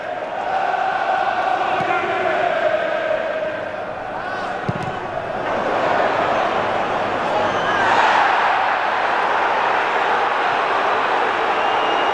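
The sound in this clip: Crowd booing at a football match between Newcastle United and Nottingham Forest, a loud sustained drone from the stands that swells midway, heard under a commentator's voice.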